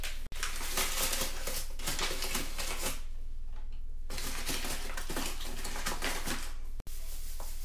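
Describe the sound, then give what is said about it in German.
About 120 grams of sugar is added to 150 grams of softened butter in a bowl, making a steady, dense granular rustle that eases briefly midway, with no talk. “Jetzt haben wir 150 Gramm Butter. Jetzt kommen noch die 120 Gramm Zucker dazu.”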